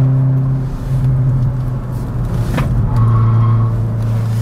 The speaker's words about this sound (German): Das ESP jetzt auf Sport. Ja, aus den Kurven raus, herrlich.